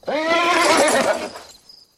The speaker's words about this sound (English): The horse shakes his head.